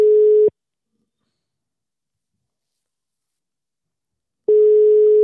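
Telephone ringback tone of an unanswered call: a steady, mid-pitched ring sounds, a long silence of about four seconds follows, and the same tone returns at the end.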